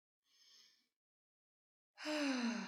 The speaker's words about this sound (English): Take a deep breath in